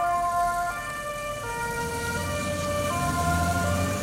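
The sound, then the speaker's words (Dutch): An ambulance siren arriving at a hospital: a loud, continuous wail that steps slowly between two pitches over a low road rumble. “Ondertussen blijven de ambulances binnenrijden bij het ziekenhuis.”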